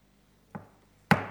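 Two sharp knocks on a table call a vote in a council meeting: a softer first rap, then a louder, crisper second one about half a second later, each with a short, dull decay.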